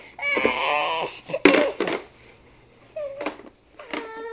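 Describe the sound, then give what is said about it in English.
A child crying in a tantrum, with shrill, wavering wails in several loud bursts separated by brief gasping pauses, ending in a rising, strained cry. “Throwing a tantrum. You won't let me play, huh?”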